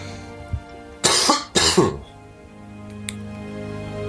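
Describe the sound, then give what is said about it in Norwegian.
A person coughs twice in quick succession, with two harsh, loud bursts against a quiet background. “må hoste litt. Nå må jeg nå si unnskyld.”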